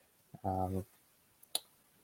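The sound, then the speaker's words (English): A computer mouse right-click: one sharp, crisp click, preceded by a fainter tick, comes shortly after a brief spoken word. “What if I right click this?”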